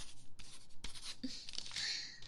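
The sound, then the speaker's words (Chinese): A pen writes a signature on paper, producing faint scratching strokes in quick, uneven bursts that build into a brisker scribble toward the end. “来， 这边签个字就是同意成为 SVIP 呢。”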